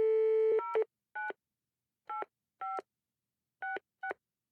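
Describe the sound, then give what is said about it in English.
Telephone speed-dialing tones: a held keypad tone, then a series of separate short beeps at uneven intervals, each clean and alone against silence. “she could just call on the BBC. That'd be pretty nice to have the BBC on speed dial.”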